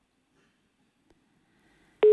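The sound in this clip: A telephone busy tone follows after a caller hung up. Near-silence with a few faint ticks gives way to a loud, steady tone that starts abruptly in the final moment.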